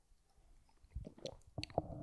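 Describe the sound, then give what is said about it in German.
Someone pausing to take a drink while recording: a few soft gulping and squishy mouth sounds with faint clicks, quiet and without talk, growing slightly louder toward the end. “Da habe ich jetzt die ganze Zeit hier rede, muss ich ab und zu mal was trinken. Sorry, Leute.”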